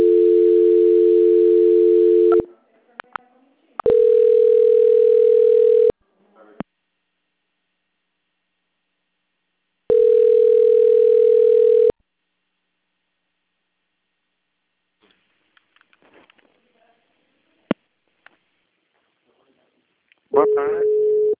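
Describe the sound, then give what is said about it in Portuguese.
Telephone transfer tones while a call is on hold: three long, steady, low tones separated by quiet gaps and a few clicks, with a fourth tone starting at the very end. “Só um minutinho, por favor. Transferência.”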